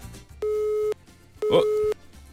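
A telephone busy tone sounds after a phone line drops: two long, steady, mid-pitched beeps with a pause between them, and a third beep just starting at the end.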